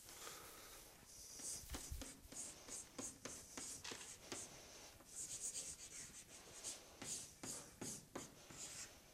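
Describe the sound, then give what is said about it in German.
Writing on a board: many short scratchy strokes in quick, uneven bursts, fairly quiet, with brief pauses between lines and no voices. “Ja, hier schreibe ich einfach nochmal das Gleiche hin, damit ich es dann da oben wegwischen kann.”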